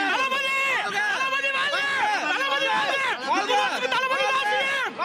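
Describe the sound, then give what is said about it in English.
A crowd chants while waiting for the actor Vijay to appear: many voices repeat the same rising and falling phrase in a steady, loud rhythm with no pause. “I told him to put the blow whistle, he clearly couldn't, so started chanting instead. So you've got all of these crowds here waiting with anticipation for the moment that Vijay will appear here now.”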